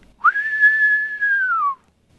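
A single whistled note holds clear and steady for over a second, then dips lower in pitch at the end, with no other sound around it.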